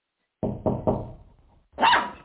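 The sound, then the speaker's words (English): A puppy barking: three sharp, quick barks in a row, then a short silence and a longer, higher-pitched yelp or whine, loud and alone with no voices. “your puppy is really cute. It seems protective, too, since he's barking at me like crazy.”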